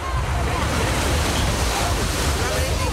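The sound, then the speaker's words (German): Waves and wind at the lido on Losheim lake, a steady, unbroken rush of surf-like water wash blended with gusty wind noise buffeting the microphone. “So klingt's heute im Strandbad in Losheim.”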